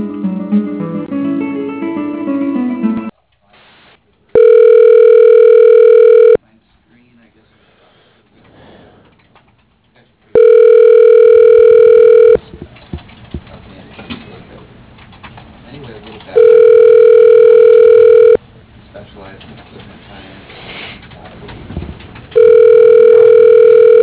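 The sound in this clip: Ringback tone of a telephone line ringing while a call is transferred to voicemail: four steady buzzing rings of about two seconds each, separated by long gaps filled with faint muffled noise, the last ring cut off.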